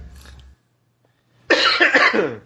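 A single drawn-out, throaty cough from someone choking on their own saliva, following a short stretch of near silence and lasting about a second with a strained, voiced quality.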